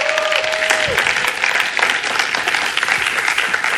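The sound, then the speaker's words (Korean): Applause from a church audience welcoming a visiting preacher to the stage: dense, steady clapping fills the whole stretch at an even, loud level, with a brief tone near the start that drops away. “우리 코리 목사님 올라오실 때 큰 박수로 환영해 주시면 감사하겠습니다.”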